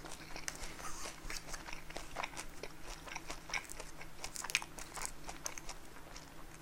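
Crisp crunching bites and chewing of toasted bread: a steady run of many sharp, crackly crunches in an irregular rhythm, moderately loud, with no talk over them.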